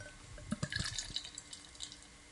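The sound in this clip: Beer being poured, a faint liquid gurgle and trickle with small splashy bursts, heard alone without voices.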